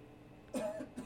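A short, faint cough rises from quiet background hiss, followed by a smaller second burst.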